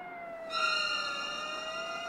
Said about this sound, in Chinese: 远处忽然响起了警车声